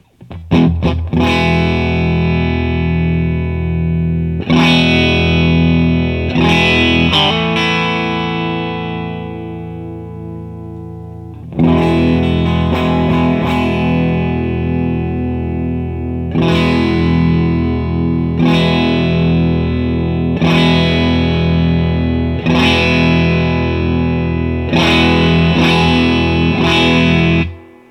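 Distorted electric guitar through a Special Cranker distortion pedal while its tone knob is swept up and down: a few loud strummed chords and notes that ring out with long, gritty sustain, heard alone.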